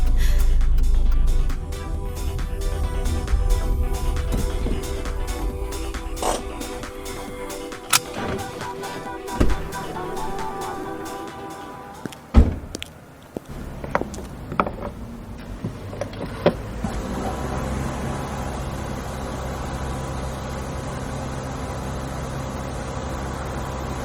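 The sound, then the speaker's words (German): A car being refuelled at a petrol station: a steady mechanical hum runs throughout, broken midway by several sharp clicks and knocks before settling into a lower, even whir. “Dort hinten ist die Tankstelle. Gut, dass ich letzte Woche schon einmal hier war. Ich werde gleich noch einmal voll tanken. Ich fahre ja schon fast auf Reserve.”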